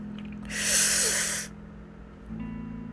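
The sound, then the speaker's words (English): A deep, breathy inhalation through the mouth comes as one loud, hissing breath, followed by quiet, over a steady low-pitched drone. “This time we're gonna take 2 deep breaths in through our mouths and exhale through our nose. And begin.”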